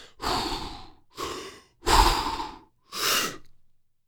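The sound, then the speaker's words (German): Deep breaths in and out taken just before holding the breath for an underwater breath-hold challenge in a box: four loud, airy breaths separated by short silences, with no talk. “Dreimal ein- und ausatmen.”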